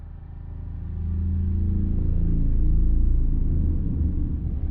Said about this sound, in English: An aerial view shows the green-topped bus traveling on a narrow two-lane road.